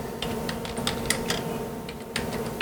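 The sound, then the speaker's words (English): Quick, irregular clicking of keys on a computer keyboard: a steady run of many light taps over a low background hum, with no talking. “Apparently I can't type the word roll.”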